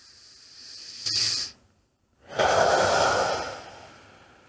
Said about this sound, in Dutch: adem twee keer diep in via de neus.